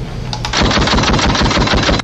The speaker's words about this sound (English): Oh, shot fired.